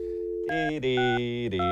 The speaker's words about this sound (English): All right, here I go. I'm going to dial him up.